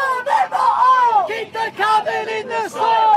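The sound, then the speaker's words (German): Protesters in smoke-shrouded Sydney chanting against oil and coal during bushfires: a loud crowd of many voices shouting in unison, in rhythmic phrases broken by short pauses. “Kein Öl und keine Kohle mehr stoppt den CO2-Ausstoß, rufen Demonstranten im rauchverhangenen Sydney.”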